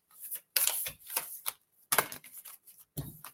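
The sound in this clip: Playing cards being shuffled and handled, with two cards hopping out of the deck: several short, crisp bursts of rustling and snapping, separated by brief pauses, with no talking.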